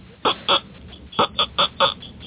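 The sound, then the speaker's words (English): A duck call is blown in six short, nasal honking bursts, two close together, then a pause, then four more in quick succession. The honks are clear and fairly loud, and no voices are heard. “See, this one here, this is a duck call.”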